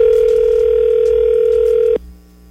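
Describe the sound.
One steady ringback tone of an outgoing telephone call sounds loudly for about two seconds, then cuts off abruptly, leaving faint line hiss.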